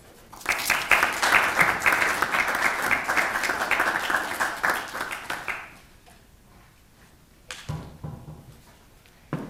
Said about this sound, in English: Please join me in welcoming her.